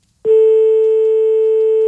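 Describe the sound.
A telephone tone sounds after a call is cut off. It starts abruptly and holds one loud, steady pitch to the end, with no talking.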